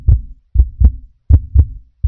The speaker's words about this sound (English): As for the heart beating in the human chest.